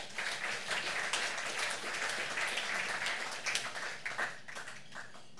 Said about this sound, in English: Please put your hands together and welcome Dan to the stage.